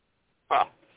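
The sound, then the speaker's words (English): One short, sharp bark from a dog left outside breaks the silence, loud and abrupt, followed by a faint trailing tail of noise. “Put the dog out and forget about her.”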